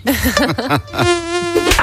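A buzzing mosquito whine used as an effect in a mosquito-repellent advert. It is loud and high, wavering in pitch at first and then settling into a steady, drawn-out drone, with no talk over it.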